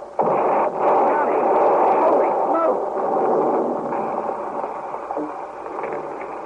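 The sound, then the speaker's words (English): A bomb wired up inside a hiding place explodes in an old radio drama. A sudden loud blast is followed by a long, muffled, roaring rumble that slowly eases off. “Well, that was some kind of a bomb wired up in there.”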